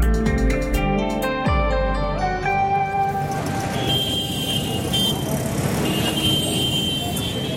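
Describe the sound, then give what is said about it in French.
Street traffic in Lahore, Pakistan: a loud, steady wash of road noise from cars and other motor vehicles that fills the whole clip without a break. “Les rues de Lahore”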